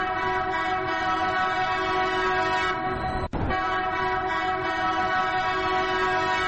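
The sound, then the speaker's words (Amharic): The new Addis Ababa city train sounds its horn, a steady and sustained tonal blast rich in harmonics that is broken midway by a single brief sharp click. “የኢትዮጵያውያን በተለይም የመስራቆቹ ትዝታ አካል የሆነው ባቡር ለአዲስ አበባ መጥቷል። ታሪክ ጨምሮ ቴክኖሎጂ አክሎ በሀገሪቱ መዲና መሃል ጥሩምባውን አሰምቷል።”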